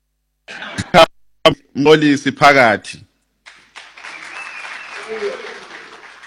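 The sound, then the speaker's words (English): Audience applause at a gathering follows a short stretch of someone speaking, rising into a dense, even patter of many hands that carries on steadily to the end. “I think Mam Zandile Gumede got a better applause than”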